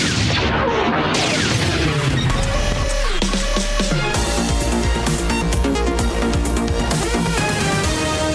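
Gunfire and heavy blasts from a film battle scene, loud and continuous over a dense orchestral score, with no talk.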